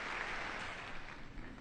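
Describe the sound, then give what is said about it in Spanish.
Faint, steady applause welcomes Pope Leo XIV during his visit to UNESCO, an even wash of many hands with no voices standing out. “que aplausos de acogida al Santo Padre por esta visita.”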